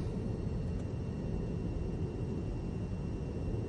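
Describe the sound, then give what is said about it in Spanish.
An airplane lands at an airfield with a continuous low, broad roar of engines and rushing air, steady in loudness from start to finish, with no voices. “El avión aterriza en un aeródromo que sobrevuelan varios helicópteros.”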